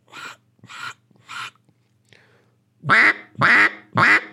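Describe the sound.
Duck quacks blown on a duck call: three softer, short quacks, a faint blip, then three louder, fuller, raspy quacks.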